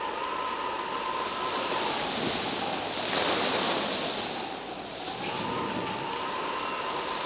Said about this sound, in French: Excusez-moi, voici la tempête.